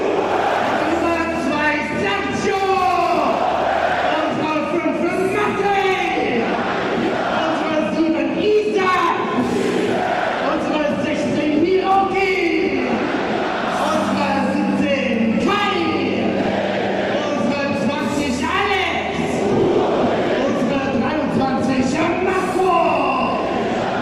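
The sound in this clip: A football stadium crowd greets its home goalkeeper, the number 1, with massed shouting and chant-like voices that stay loud and dense without a break for the whole stretch.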